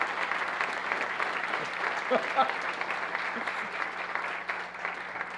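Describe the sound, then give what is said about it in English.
Continuous applause from an audience after a speech at a debate on science and belief in God: dense, even clapping that holds steady throughout, with faint voices beneath. “you finished early, so that applause was okay”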